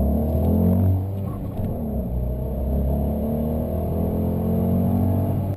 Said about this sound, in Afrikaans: twee silinder se knor en ratshantering dra by tot die 500 sport se charme.